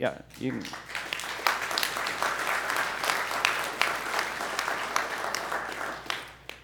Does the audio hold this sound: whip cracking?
no